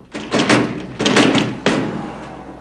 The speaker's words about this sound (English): He makes his way along the glass front and finds an unlocked door, which he pushes open.